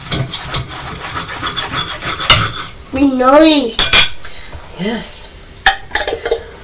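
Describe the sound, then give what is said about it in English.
A knife scrapes and rasps through a slice of toast in repeated rough strokes. Brief voices and a child's sing-song sounds are mixed in. “That was the noise of me cutting the toast with a knife.”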